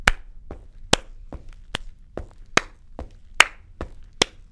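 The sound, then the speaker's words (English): Rhythmic foot stomps and hand claps performed as a movement exercise, sharp hits falling at an even, steady pulse, with bright claps seeming to alternate with duller, lower stomps across about eleven beats. “So I might stomp, right? And I might add some sort of hand clap.”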